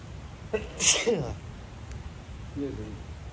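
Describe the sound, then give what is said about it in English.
A single sharp human sneeze bursts out and quickly fades, followed by a faint, brief vocal sound. “And I'm coughing and sneezing. There's sneezing everywhere.”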